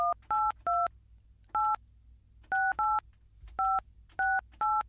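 Telephone keypad dialing tones: nine short, clear two-tone beeps in an uneven rhythm. Some come in quick clusters and others are separated by brief pauses, over a faint background hum.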